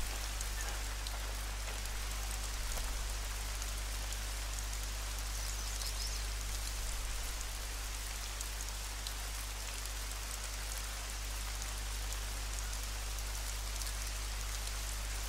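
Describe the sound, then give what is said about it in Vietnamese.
Steady rain falls throughout, a dense, even hiss of drops on surfaces with no breaks and no voices. “Tiếng mưa nha, nó sẽ làm giảm cái tiếng, nó sẽ làm giảm cái tiếng chân của tôi đi.”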